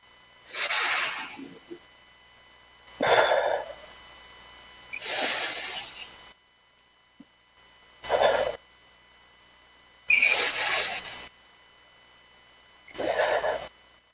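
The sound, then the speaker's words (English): Three slow, deep breaths taken together by a group, each a soft airy hiss drawn in and let out, with quiet pauses between. The sound is faint and unaccompanied by talk. “let's take three deep breaths together”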